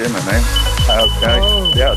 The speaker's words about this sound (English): the fire alarm going off in the background because he totally forgot about it